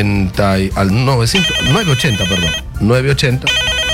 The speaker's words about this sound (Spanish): Ponemos la primera llamada a Turri, la ponemos al aire.